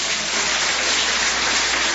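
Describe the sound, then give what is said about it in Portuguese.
Applause from a Pentecostal church audience at a worship service: dense, steady clapping that fills the whole stretch at an even loudness with no breaks. “Quem tem essa paz pode bater mais palmas da glória.”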